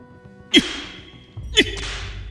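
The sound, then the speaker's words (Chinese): Two sharp whip lashes strike a child's body as household punishment, about a second apart. Each is a sudden loud crack with a swishing rush of air that trails off briefly, and no voices are heard. “啪啪，鞭子带着劲风抽在身上，是皮开肉绽的闷响。”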